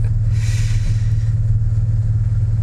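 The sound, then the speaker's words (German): A taxi driving slowly gives a steady, loud, low engine drone with an even rumble throughout, and no one speaks. “Ich fahre langsam, ja? Im Fluss wollen wir nicht gerade landen mit dem Taxi, was?”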